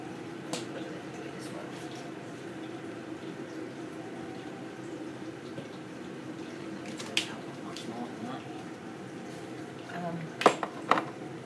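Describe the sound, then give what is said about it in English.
Faint clinks of a utensil against a cooking pot as a dish of black, red and chili pepper with garlic is stirred. A low bubbling or sizzling bed runs throughout, with a few sharper knocks near the end. “Let me just give it another stir.”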